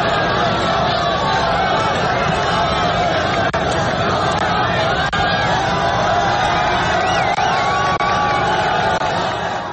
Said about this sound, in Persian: همهمه ازدحام مردم و شعارهایی بود که از طرف گروهی از شبه نظامیان فلسطینی و ساکنان منطقه هنگام تحویل گروگان‌ها به صلیب سرخ روی داد